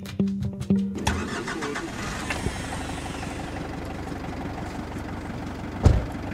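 A car engine starting early in the morning in a small village on the front line in eastern Ukraine. A few clicks lead into the engine catching, then a steady low idle hums on. A single thump comes near the end.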